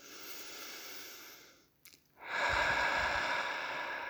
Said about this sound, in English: I'm going to take a little breath.